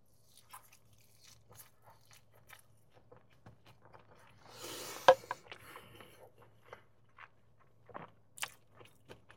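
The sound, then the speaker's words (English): A crunchy bite into fried jalapenos and onions dipped in ranch lands as one loud, brittle burst midway, framed by faint, scattered chewing and mouth noises. “Do you see those fried jalapenos and onions? 10 out of 10. Let's have a bite with some ranch.”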